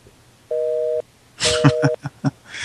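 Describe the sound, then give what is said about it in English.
Busy-signal tones sound on a telephone line left off the hook: two short, steady electronic beeps, the second partly covered by clattering and rustling noises. “I think they set the phone off the hook.”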